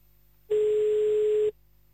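A telephone rings unanswered on a call to a parachute-jump business in Spa: one steady ringback tone lasts about a second over faint line hum, then stops.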